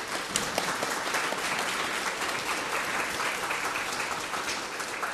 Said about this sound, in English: I think we should give him a round of applause for becoming a professor.